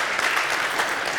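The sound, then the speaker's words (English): Audience applause, a short burst of steady, dense clapping. “That's worth an applause.”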